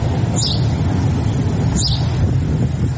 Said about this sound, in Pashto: د مرغۍ چغه په خود کړ.